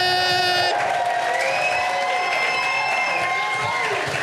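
A crowd at a live comedy show cheers, whoops and applauds as a comedian comes on stage: loud, sustained shouting and clapping that holds at full strength from start to finish.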